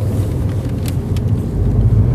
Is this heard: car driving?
yes